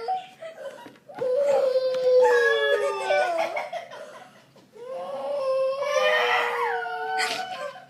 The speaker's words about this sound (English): Children screaming, huh? It's always something.